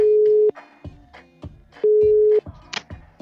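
Telephone ringing tone while calling a Scottish man named Ross: two steady mid-pitched beeps, each about half a second long, separated by a pause with faint clicks and clatter.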